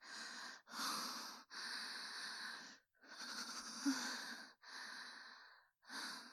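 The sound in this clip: Deep breathing, a steady series of long, audible breaths with a slightly wheezy, rasping edge, separated by short pauses and heard alone.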